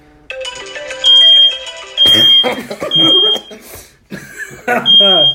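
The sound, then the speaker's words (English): Smoke detector going off with no smoke present: four loud, shrill, sustained beeps amid music and other clattering noise. “That's just the fire alarm I get. Wait, there's not even any smoke.”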